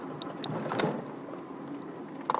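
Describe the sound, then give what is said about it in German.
Plastic CD cases falling and clattering: a few light, sharp knocks spread out, then a quick cluster of clicks at the very end, all faint over a steady low background noise. “Upsala. Fallen die CD-Hüllen runter. Ups.”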